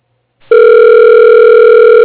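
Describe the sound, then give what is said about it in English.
A loud telephone dial tone after dialing. The steady, unwavering hum begins abruptly after a faint click and holds constant to the end. “Okay, dialing.”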